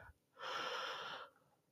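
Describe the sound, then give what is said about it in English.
A single deep breath is inhaled as a steady, airy rush of air lasting just under a second, rising quickly and cutting off cleanly. It is quiet and heard alone, without speech. “Let's just take a moment to take a deep breath. One, two, three. Inhale.”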